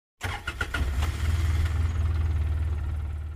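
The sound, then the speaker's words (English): A vehicle drives home to a farm pulling a bumpy horse trailer. Its low engine rumble starts abruptly and holds steady, with a few rattling knocks near the start. “It sure is bumpy in this horse trailer.”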